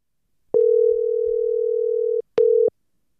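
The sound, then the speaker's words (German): The ringing tone of an outgoing telephone call: a steady, single-pitched tone held for well over a second, then a short repeat of the same tone after a brief gap. “Die Zeit nutze ich für einen Anruf bei Bulelani Chili.”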